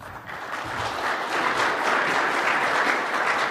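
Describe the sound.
Audience applause welcoming a speaker at a mining industry presentation on off-highway telematics before a full house: dense, steady clapping from a large crowd, loud and unbroken throughout.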